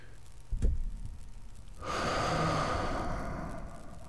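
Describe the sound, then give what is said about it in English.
A slow breath drawn in during meditation: a long, steady, airy inhale fills the second half, after a brief low thump earlier on. No talking. “It can be a sigh. It can, it's like through meditation, when I breathe in,”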